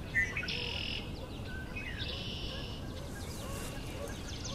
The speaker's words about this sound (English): Red-winged blackbird over here.